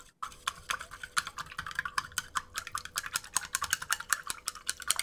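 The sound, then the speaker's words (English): A spoon stirs a tablet into a glass of water, giving many quick, bright clinks against the glass in a fast, steady rhythm. The clinking is fairly faint, with no talking. “I'm going to drop it in my water. I'm going to stir it up.”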